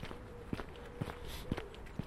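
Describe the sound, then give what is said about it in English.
Footsteps of a person walking towards Manor Farm Park in Birmingham: four even, soft thuds at a regular walking pace over a steady low outdoor background, with no talk. “Beautiful day here in Birminghamshire. So it's walking towards Manor Farm Park.”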